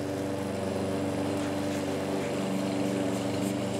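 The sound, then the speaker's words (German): A lawn mower mowing grass gives a faint, steady engine drone with a low, buzzing hum that holds an even level throughout. “Jetzt kann Felix den Rasen mähen.”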